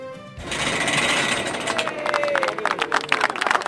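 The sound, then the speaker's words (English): Crowd noise at a flag-raising ceremony at city hall: a steady, fairly loud wash of outdoor murmur and voices that fills the whole stretch, with a faint thin tone sliding lower near the middle. “That's the sound of the CARP flag being raised.”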